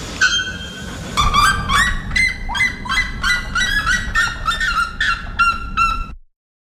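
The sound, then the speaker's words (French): Loud, harsh calls of two birds, one after the other, ring out in many rapid, evenly spaced bursts. The calls are bright and strongly harmonic and come over a steady low rumble. “C'est le cri de ces oiseaux. J'ai un extrait pour vous, niveau normal, là, pas niveau marteau-piqueur, des deux oiseaux l'un après l'autre.”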